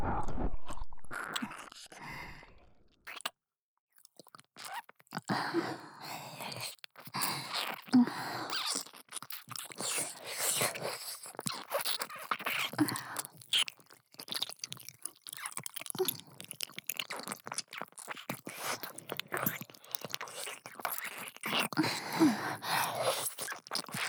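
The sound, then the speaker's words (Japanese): ASMR ear kissing: soft, wet lip and mouth smacks close to the ear, many small clicks and moist pops running continuously at a quiet level after a brief silent opening. “ご主人様の愛おしいお耳に心を込めて、口づけさせてください。”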